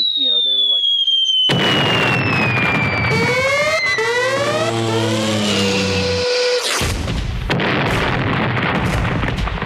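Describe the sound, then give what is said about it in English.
Fireworks explosions in a loud, continuous barrage of crackling bursts, laced with whistling tones and ending in a dense, sputtering crackle. “did you hear those bombs bursting in air and into your eardrums?”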